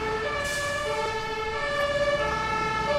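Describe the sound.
Fire engine siren as the fire truck departs, sustained tonal siren wails held steadily over a low vehicle rumble, fairly loud throughout.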